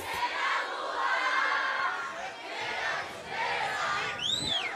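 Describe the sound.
A crowd shouting at a live DJ show in Mocajuba, a steady, fairly faint roar of many voices that swells and dips without pause.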